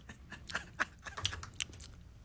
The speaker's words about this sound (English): Slurping some soup.